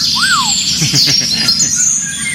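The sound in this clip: Eurasian golden oriole song: a single fluted whistle that rises and falls, followed by faint higher chirps over a constant bright hiss.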